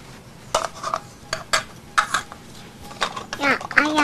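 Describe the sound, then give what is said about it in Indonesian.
A spoon clinks and scrapes inside a pot as fish and corn soup is stirred. Sharp metallic knocks and rattles come at irregular intervals, many of them, with quieter gaps between. “Masak sop ikan sama jagung. Nah. Aduk-aduk.”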